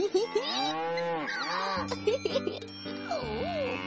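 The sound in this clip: A herd of cows at the edge of a forest lowing, with several drawn-out moos that bend up and down in pitch and overlap one another at moderate loudness.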